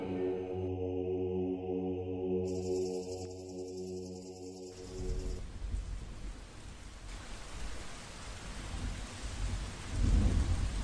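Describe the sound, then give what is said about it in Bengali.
Heavy rain and thunder from a storm sweeping through a forest. After a stretch of sustained tones, a steady, dense downpour hisses without a break, and a deeper rumble swells near the end. “ঝড় এসে সমস্ত অরণ্যকে জাগিয়ে দিয়ে গেছে এখন বৃষ্টি পড়ছে মুসলধারে”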